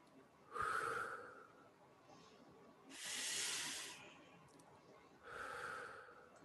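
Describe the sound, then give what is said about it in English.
Slow, deep centering breaths, three faint airy hisses spaced a couple of seconds apart with quiet gaps between them. “they would take 2 or 3 centering breaths”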